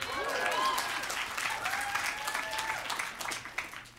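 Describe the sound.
Live audience applause at a show in Portland, loud, dense clapping with a few cheering voices mixed in, gradually thinning toward the end.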